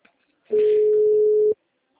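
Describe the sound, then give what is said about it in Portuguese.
A telephone line tone as a call drops: one flat, steady, mid-pitched beep lasting about a second, alone between stretches of silence. “Oi, caiu a ligação. Caiu, não tem problema.”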